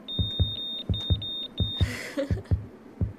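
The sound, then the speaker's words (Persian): A fetal heartbeat plays through an ultrasound machine during an exam in a doctor's office: a fast, steady train of soft whooshing thumps. A thin, high continuous beep sounds over the first half, then stops. “از دستگاه سونوگرافی تصویر جنین بیرون می آید. اینم صدای قلبشه.”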